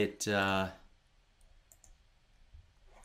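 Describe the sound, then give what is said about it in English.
Faint, sharp computer mouse clicks as a Login button is pressed. A couple of light taps stand out against a quiet background, shortly after a louder burst of sound at the start. “And then I gotta give it the password and then click Login.”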